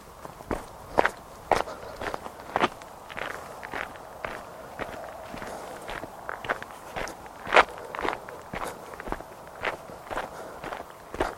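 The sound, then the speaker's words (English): Footsteps of a person walking outdoors in the countryside near pine trees: many crisp, irregular steps crunching on the ground, each a short sharp tap at a steady walking pace, with no talking. “So I'm going to carry on walking.”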